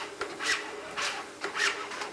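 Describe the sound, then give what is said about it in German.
Cable pulls of a motorized exoskeleton, worn on a patient's back with electric motors set to 30% walking support, work with each step in a hospital: a few soft, rhythmic, scraping whirs, quiet and alone. “Bei jedem Schritt arbeiten die Seilzüge und unterstützen seine Muskeln.”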